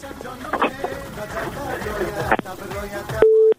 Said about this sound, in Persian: فکر میکنم تماس بانو فروهر قطع شده.